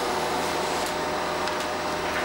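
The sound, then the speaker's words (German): A printer printing out a document during a school lesson gives a steady, even whirring noise with constant loudness and a few faint clicks over its length. “Sie drucken das ja jetzt schon aus”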